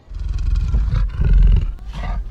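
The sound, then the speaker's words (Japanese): A lion roars in a few deep, rough, throaty bursts separated by short gaps. The roars are loud and heard alone. “あ、あそこライオンがいます。”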